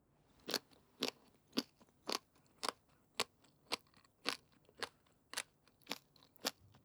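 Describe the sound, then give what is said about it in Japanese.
Crisp, brittle crunches from chewing iburigakko, smoked pickled radish, about a dozen evenly spaced bites in a steady rhythm, each a short sharp crack, quiet and alone with no talk. “あんた今いぶりがっこだけつまんだでしょう。 いやー、この噛んだ時のカリッコリっていう音がたまんなく好きでさ。ねね、聞こえる？”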